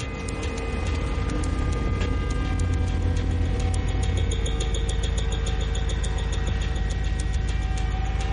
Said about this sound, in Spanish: El gris se queda unos metros con el motor encendido.